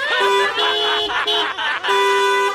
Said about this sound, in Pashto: اوهو ته دا هارن خو بند کا بی بی